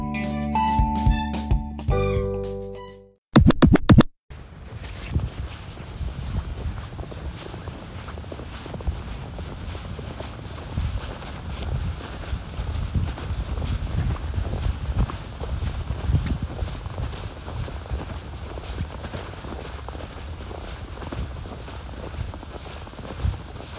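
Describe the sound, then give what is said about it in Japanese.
Footsteps on an afternoon walk outdoors while snow falls, a steady rhythm of soft crunching steps with rumbling wind noise that runs for a long stretch, preceded by a brief musical sting. “早めに散歩したんですが、雪が降る中の午後散歩、全部で8分ぐらいありますね。お聴きください。”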